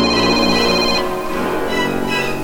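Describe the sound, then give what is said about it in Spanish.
Mobile phone ringing with a bright, tonal ringtone that shifts its pattern partway through. It is fairly loud and heard alone. “cuando el celular sonó para rescatarme”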